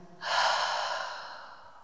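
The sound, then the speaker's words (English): One long breath is drawn during guided meditation, an airy, breathy rush that swells quickly and then fades gradually over about a second and a half. “At this moment, I will breathe in and breathe out”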